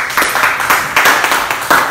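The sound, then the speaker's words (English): Audience clapping, heard as a short burst of loud applause from many hands with irregular sharp peaks, fairly steady throughout the two seconds. “Let's clap for Grace.”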